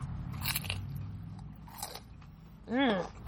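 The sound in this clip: Crunchy bites into crispy, curly fried chicken give a couple of crisp crackling crunches, followed near the end by a short voiced murmur.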